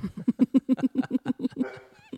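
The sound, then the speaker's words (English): A female guard dog barks in a rapid, even run of many short, loud yaps with no talk over them. “the guard dog is pretending she's guarding stuff”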